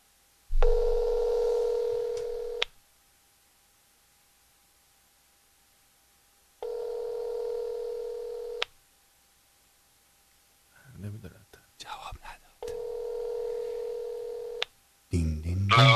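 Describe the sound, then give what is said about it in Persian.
Ringback tone from an outgoing phone call on an iPhone speakerphone: three steady, mid-pitched tone bursts of about two seconds each, separated by long silent gaps, with a voice talking briefly between the last two. “زنگ بزن الان، بذار رو آیفون چیز سپیکر”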